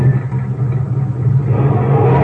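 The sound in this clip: A car drives off with a loud, low engine rumble that stays steady and grows slightly stronger in the second half.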